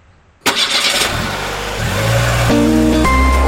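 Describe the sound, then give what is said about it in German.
A broadcast van's engine starts with a sudden roar and settles into a steady running hum, growing slightly louder and higher as it revs and pulls away, with no talk over it. “Wir räumen unseren Sendewagen jetzt wieder zusammen und gliedern uns dann in Ferienrückreiseverkehr Richtung Gotthard und fahren unseren Reportagewagen zurück in seine Garage auf Bern.”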